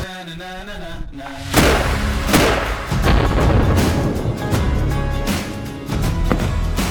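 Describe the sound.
A rifle shot fired at a long-range steel target: a sharp, loud crack that opens into a rolling rumble, with a few further thumps in the tail.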